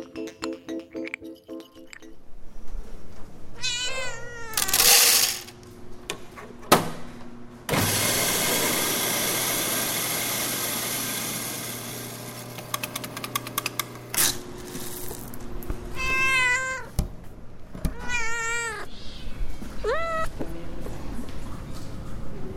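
Tabby cat in the Bay Area meowing several times in rising-falling cries. Clinking and mechanical rattles come before the meows, along with a long stretch of broad hiss.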